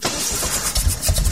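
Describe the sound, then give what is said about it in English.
A struggling diesel truck engine trying to start, with rough, loud, continuous churning and uneven pulses and no voices. “That sound is a major headache. For diesel truck and fleet owners, a struggling engine means lost time,”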